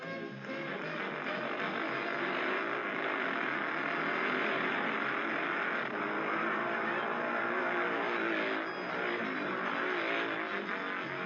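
Souped-up speedway motorcycles roar through a 1968 practice race at Hackney Stadium, with four riders on the cinder track. Their engines blend into a loud, steady, unbroken drone for the whole stretch.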